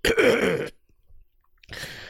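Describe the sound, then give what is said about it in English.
A man clears his throat in a loud, gravelly rasp lasting under a second, then a shorter second rasp follows after a brief silence. “let me clear my throat.”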